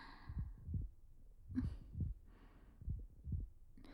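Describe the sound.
A heartbeat sounds faint and close, with a few soft, low double thumps in a slow, steady rhythm and no voices.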